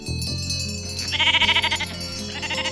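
A sheep bleats a loud, trembling, wavering cry over a steady musical background.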